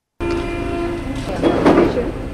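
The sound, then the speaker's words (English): A Paris Metro train runs with a continuous loud rumble and a sustained whining tone, and the roar builds into a harsher, brighter surge in the second half. “Ah, the Paris Metro.”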